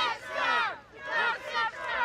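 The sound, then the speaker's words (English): A crowd chants a slogan in unison as a man returns home from hospital. Many voices rise and fall together in about three loud, rhythmic swells. “As he approaches the crowd, people start to chant.”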